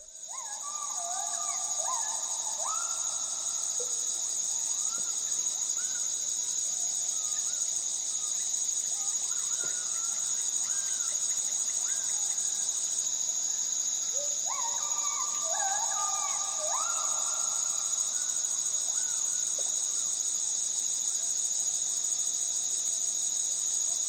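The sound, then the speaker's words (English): Gibbon calls from the Borneo rainforest, heard as two bursts of rising, hooting whoops over a loud, steady, high-pitched insect chorus that runs the whole time. “This is a bit of a soundscape recorded in Borneo, and you will prominently hear a primate, the ape known as a gibbon.”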